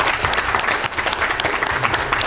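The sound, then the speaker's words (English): An audience applauds at a community awards event, a dense, even wash of many hands clapping that stays fairly loud and steady throughout. “I'd love everyone to give him a round of applause.”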